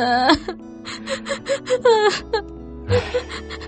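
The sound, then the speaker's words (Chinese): Crying and sobbing: a wavering, loud wail opens, then a run of many short, breathy sob bursts with shaky catches of breath, broken by a brief pause before the sobbing resumes. “哭吧哭吧，把所有的委屈都哭出来，哭痛快了。”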